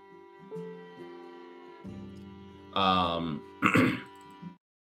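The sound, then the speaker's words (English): A human voice imitates Mongolian throat singing, holding a low, buzzing, harmonic drone that swells into two louder, strained, rasping bursts near the end before cutting off. “Was that about to be some like Mongolian throat?”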